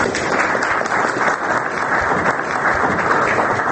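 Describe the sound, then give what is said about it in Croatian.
Debate participants applaud after a long political speech, a loud, dense and unbroken rush of clapping from many hands holding steady throughout. “aplauz od učesnika rasprave nazvane Republika Srbija i Republika Srpska, stari i novi politički izazovi”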